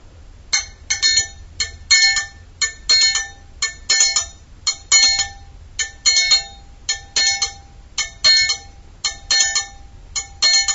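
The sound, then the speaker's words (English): A triangle struck in a simple beat: many bright, ringing metallic hits fall in short rhythmic groups separated by brief pauses, played alone and fairly loud. “The triangle is a really simple instrument.”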